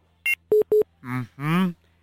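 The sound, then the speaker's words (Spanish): Short electronic telephone tones sound as three brief beeps in quick succession. A voice then speaks briefly. “Está sonando el teléfono, Annie. Vamos a tener otra llamada.”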